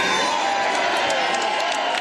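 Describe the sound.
An ecstatic crowd cheers at a political rally on election night as the party leader takes the stage, creating a dense, continuous wash of loud shouting and whooping.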